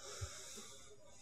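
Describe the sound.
Nervous heavy breathing as a man tries to calm himself, one faint, drawn-out, wheezy breath with a hissy edge and no speech.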